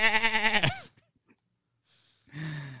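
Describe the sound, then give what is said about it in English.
A goat bleats in a death metal song once the chorus stops: one loud, long, quavering bleat rich in harmonics, followed by a near-silent pause before another low voiced sound begins. “and then it stops, and then you just get a goat going,”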